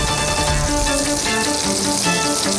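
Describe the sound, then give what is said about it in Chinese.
Steamed pigeon breast pan-frying until its skin turns crisp, a loud, dense, continuous sizzle and crackle of hot fat that holds steady throughout. “然后把蒸好的鸽胸肉煎出脆皮，”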